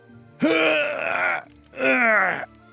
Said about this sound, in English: He grunted as he mimed pushing the sky upwards